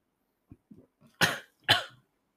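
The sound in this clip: A person coughs after inhaling a drink of Irn-Bru: a few faint splutters, then two loud, harsh coughs in quick succession.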